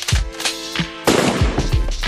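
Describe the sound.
Gunshots ring out as a few sharp, punchy bursts in quick succession, each with a booming low tail, over a sustained musical backdrop with steady tones.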